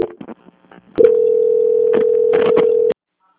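Call transfer tone on a telephone line: a few short clicks and scraps of noise, then a steady mid-pitched tone lasting about two seconds, with brief bursts over it, ending abruptly.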